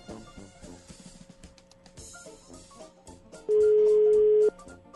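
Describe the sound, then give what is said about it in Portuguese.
A telephone call being placed: a single steady ring tone lasting about a second rises clearly above softer background sound. “Deixa eu ligar pra esse.”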